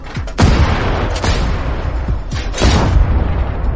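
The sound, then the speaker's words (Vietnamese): Shotgun fired repeatedly in a horror audio story: a few heavy, booming blasts in quick succession, each with a rumbling tail, over a continuous dense background of noise. “Hắn liên tiếp bóp cò súng nhắm vào đôi cánh màu trắng kia.”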